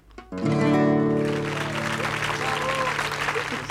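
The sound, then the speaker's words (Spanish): A studio audience applauding in a radio auditorium, with a sustained musical chord held at first and dense, steady clapping that swells quickly and carries on to the end. “¿Ya están pronto en la fonoplatea? Ya están aplaudiendo.”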